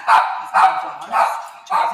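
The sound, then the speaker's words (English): A dog barks four times in a steady rhythm, each bark a sharp, mid-pitched burst with short gaps of quiet between them. “Here's my beautiful dog, Seabird.”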